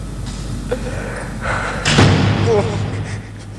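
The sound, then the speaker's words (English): A door being opened slowly by someone with a sore arm: a soft knock, then a louder thump and rattle partway through, over a steady low hum. “I'm taking my time opening the door because my arm is so sore.”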